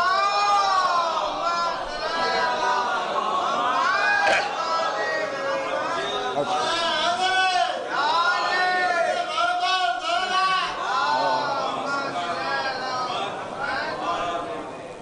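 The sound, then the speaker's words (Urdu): A crowd loudly recites salawat in unison to welcome a guest, many voices chanting together in a dense, sustained wash of overlapping rising and falling phrases that never drops out. “ان کے استقبال میں بھی آپ حضرات ایک باوا سے بلند صلوات.”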